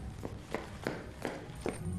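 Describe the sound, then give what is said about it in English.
Someone sprints up the stairs out of a basement with quick, faint footsteps. About five light thuds come in an even, hurried rhythm. “She sprints off out of the basement and up the stairs after Martin.”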